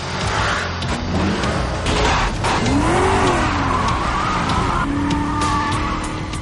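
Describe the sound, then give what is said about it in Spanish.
Roaring engines and squealing, skidding tires in a film car chase as several taxis pursue a Mustang after it jumps a ramp, with a rising-and-falling screech midway and another sustained squeal near the end. “Pasa sobre una rampa y sale al exterior de un gran salto. Varios taxis lo siguen.”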